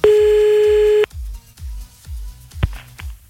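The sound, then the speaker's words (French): A telephone call being placed late at night: a steady electronic dial tone holds for about a second, then gives way to a regular series of short, low, muffled pulses as the number is dialed. “on appelle à minuit 49, un peu à la bourre, certes.”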